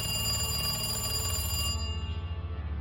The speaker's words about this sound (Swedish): En telefon ringer på ett kontor med dämpad belysning.